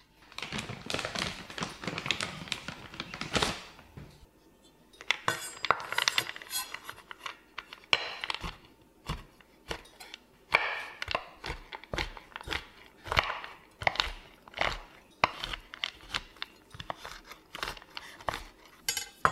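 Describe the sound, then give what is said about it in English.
A knife chops about 100 grams of chocolate for baking in many quick, crisp taps and cracks that come in irregular bursts, with a short pause early on and no talking. “So let's just measure out 100 grams of the chocolate and chop them all up.”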